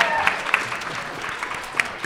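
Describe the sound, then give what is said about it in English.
Audience applause at the close of a live show: a dense, steady patter of many hands clapping throughout, fairly even in loudness with a few sharper claps standing out. “give me all a round of applause.”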